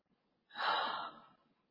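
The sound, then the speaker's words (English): A single deep breath, soft and airy, swells quickly and then fades gradually over just under a second, with no talk around it. “Just take a deep breath.”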